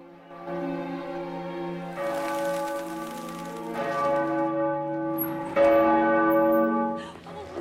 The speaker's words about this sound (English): Then the bell's ringing in the church tower, and it's graduation day.